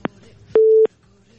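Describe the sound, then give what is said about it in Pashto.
A telephone busy tone sounds after a call-in line disconnects: one steady, low electronic beep lasting about a third of a second, preceded by a faint click. “اړیکه پرې شو بل اړیکه برا واخلو”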